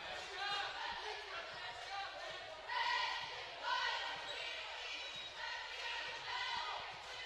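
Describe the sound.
A basketball dribbled on the court during a game makes repeated quick bounces in a steady rhythm under a commentator's continuous voice.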